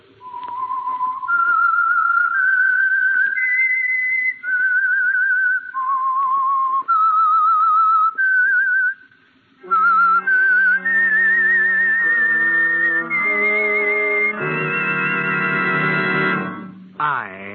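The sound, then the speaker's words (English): A tune is whistled as sustained, slightly vibrato notes that step up and down in a clear melody. Partway through, an orchestra joins in and the whistling continues over it. “That whistle is your signal for the Signal Oil Program, The Whistler.”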